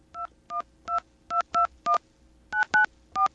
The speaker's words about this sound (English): I have to dial 212, right? All right, here we go.